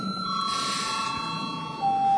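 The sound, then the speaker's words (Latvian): A bell rings in a parliamentary chamber to call members to a vote on a bill. It is a steady, sustained ringing with bright tones that lasts the whole clip and grows slightly louder near the end. “Tātad lūdzu zvanu.”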